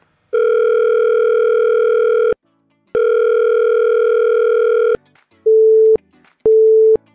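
Telephone line tones before a voicemail greeting: two long, steady, buzzy tones of about two seconds each, then two shorter tones at a lower pitch, loud and clean with silent gaps between them.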